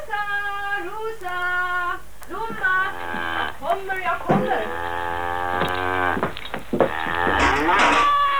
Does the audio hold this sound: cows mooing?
yes